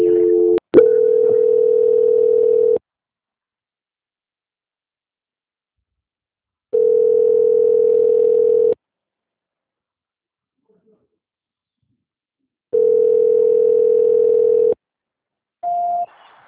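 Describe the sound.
Telephone tones during a call transfer: three steady, evenly pitched tones of about two seconds each, separated by long silences, then a brief higher-pitched beep at the end.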